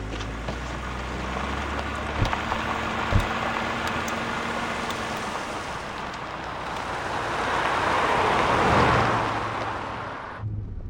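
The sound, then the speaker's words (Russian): Security car driving off behind another car carrying a woman, her husband and guards: a steady broad engine rumble that swells near the end, then cuts off abruptly. “За ними следует автомобиль охраны.”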